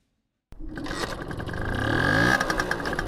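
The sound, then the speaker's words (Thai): An old motorcycle engine bursts into sound after a short silence, then runs with a buzzy, rattling drone that climbs steadily in pitch and loudness. “เขาขับมอเตอร์ไซค์คันเก่าไปยังห้างสรรพสินค้าชื่อดังที่อยู่ไม่ไกลนัก”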